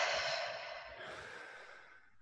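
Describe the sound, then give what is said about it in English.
A deep breath taken during a guided relaxation breathing exercise: one long, airy, soft rush of breath that holds steady and then slowly fades, heard alone with no talking. “And then take a deep breath in and out.”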